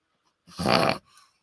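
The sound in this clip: A dog with the sniffles gives one short, throaty, snuffling burst, then a fainter, briefer follow-up snuffle, heard alone without talk.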